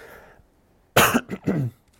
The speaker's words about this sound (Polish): Chyba jestem trochę podziębiony. Przepraszam Was za ten kaszel.